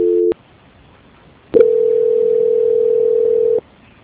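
Telephone line tones play during a call transfer: a brief tone, a short silence, then a steady, unbroken tone lasting about two seconds before cutting off. No voices are heard.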